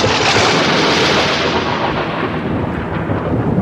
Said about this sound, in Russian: Вдруг в полночь поднялся сильный ветер. Блеснула молния.